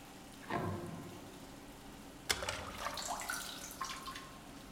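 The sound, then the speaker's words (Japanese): Water poured over a head during hair washing: a soft splash early on, then a sudden louder gush of pouring water that trails into splashing and trickling, with no voices. “最初は、頭から洗っていくわよ。”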